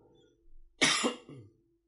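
A phlegmy cough from someone with mucus in the throat: a few harsh, rasping bursts in quick succession, the loudest in the middle, with no talk around it.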